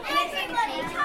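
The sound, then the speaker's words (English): Hubbub of a primary-school class in Devon, England, chattering just before lunchtime: many overlapping children's voices at a steady, busy level. “This is the sound of Class 5 at Blackhorton Primary School in Devon, England, just before lunchtime.”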